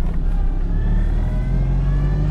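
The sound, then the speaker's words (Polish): A car pulls away from a stop after the handbrake is released, its engine a loud, steady drone with faint harmonic tones climbing slowly as it gathers speed. “Ręczny zdejmę. Ruszamy.”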